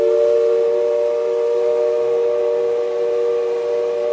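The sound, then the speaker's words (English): A train whistle blows one sustained, unbroken chord-like tone, loud and steady from start to finish. “it's like two longs and a short, and you ring the bell is sort of arbitrary, but it's the whistle is very important. Yeah. I love the sound of that whistle.”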